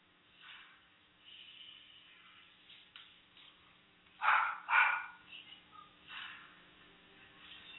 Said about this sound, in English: Excuse the barking dog in the background.